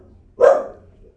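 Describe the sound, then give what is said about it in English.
A single loud bark from a dog in the room, a sharp burst with a quick fade, heard alone against near silence. “Now we got a barking dog in here.”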